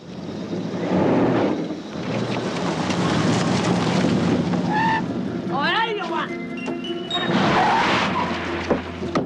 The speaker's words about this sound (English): Dwayne gives hand signals to his accomplice in order to get the car out of its parking space. Dwayne is nearly run over.